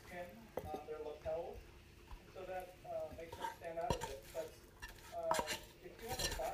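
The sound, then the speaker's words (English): Spooning food out onto a plate: a few sharp clinks and scrapes of a spoon against dishes, with soft stirring noises between them and a person talking throughout. “So now I'm just going to... Oops. Spoon it out onto the plate.”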